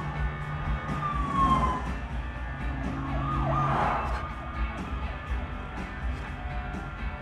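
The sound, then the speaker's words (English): Emergency vehicle sirens wail faintly through dense traffic, with rising and falling tones over a steady wash of engine and road noise. “Just follow the emergency vehicles. No one will blame you.”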